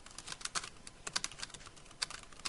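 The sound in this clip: Typing code on a computer keyboard: many quick, crisp keystrokes in an irregular rhythm, with brief pauses and small clusters of taps, heard alone.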